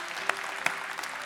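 An audience applauds during a church service: a steady wash of hand claps, with a couple of sharper, louder claps standing out.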